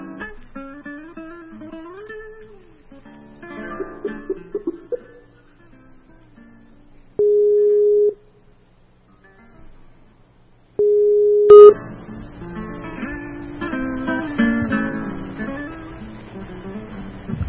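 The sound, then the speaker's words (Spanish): Two steady electronic call tones from a Skype call being placed, each lasting under a second and separated by a pause, between stretches of quieter and then busier sound. “mejor dicho, a llamarla por Skype, para ponerla en nuestro circuito de transmisión”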